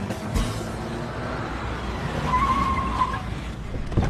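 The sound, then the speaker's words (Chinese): A car is driven off with a rumbling, revving engine and a brief high tire squeal partway through as it skids, the noise steady and fairly loud throughout. “他爬到驾驶座上把车开到了阿正面前。”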